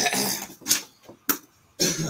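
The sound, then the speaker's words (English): Coughing and throat clearing from something caught in the throat: a few harsh, raspy coughs come in separate bursts, with short pauses between them. “Hold on, I got something in my fucking throat.”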